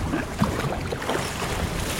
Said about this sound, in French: c'est pas le plus agréable parce que là le vent souffle un peu